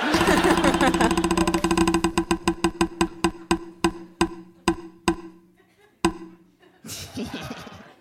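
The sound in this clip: A prize wheel spins live before a crowd. Its rapid clicking ticks start as a dense rattle, then space out and slow until it stops, and a burst of crowd noise follows.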